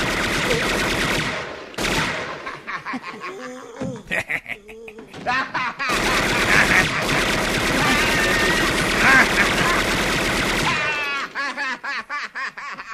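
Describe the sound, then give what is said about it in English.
Gunfire erupts in a scene from a Christmas movie, long stretches of rapid machine-gun rattle with brief breaks, and voices mixed in among the shots. “Wow, this is the second week in a row you played me a gun clip having to do with our Christmas movie.”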